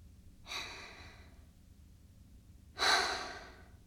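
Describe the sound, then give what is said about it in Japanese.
Slow, deep breathing as a breathing exercise: two soft, airy breath sounds separated by a quiet pause, the second louder and longer, with no talking. “私に合わせて3回深呼吸して。”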